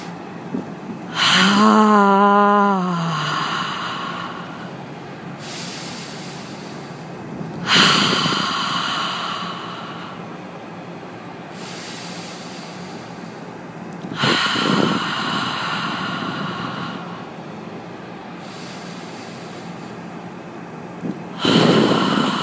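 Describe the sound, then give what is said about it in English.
Breathing exercise in a yoga breathing practice: several cycles of a sharp nasal inhale followed by a long, breathy open-mouth exhale on "ha," each exhale drawn out as far as possible. The first exhale carries a brief voiced tone. “inhalation and exhaling with the mouth open, making the sound ha, lengthening the exhalation as long as possible.”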